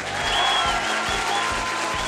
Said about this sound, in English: Let's have a big round of applause for the members of the jury.